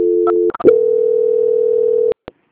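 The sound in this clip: Telephone transfer tone on a call being passed to a bank's quality-control line: a steady mid-pitched tone broken by a few clicks, then a longer sustained tone of about one and a half seconds, ending in two sharp clicks.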